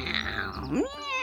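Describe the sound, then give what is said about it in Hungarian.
An angry cat growls low, then gives a single short meow that rises in pitch, faint and brief. “A tarka macska mérgesen morgott és nyávogott.”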